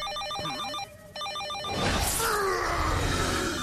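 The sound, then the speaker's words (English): A telephone rings in two bursts of electronic trilling tones with a brief pause between them. A louder, rough wash of noise follows and carries on to the end. “That's just a phone, Hulk.”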